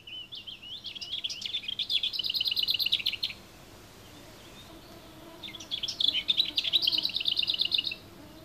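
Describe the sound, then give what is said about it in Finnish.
A lesser whitethroat sings two phrases separated by a short pause. Each phrase starts with a soft, quiet warble and builds into a loud, dry, rapid rattle, with no other sound around it. “Hernekertun laulu alkaa hiljaisella lavertelulla. Sitä voi olla vaikea kuulla. Ja päättyy säksätykseen, joka on hieman kuin herneitä helisyttelisi peltipurkissa.”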